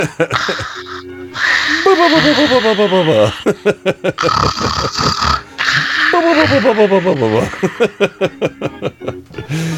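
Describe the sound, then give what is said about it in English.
A human voice imitates loud, ugly snoring: two long, rough, rattling inhaled snores, each followed by a rapid run of pulsing snorts and sputters. “She ugly snores.”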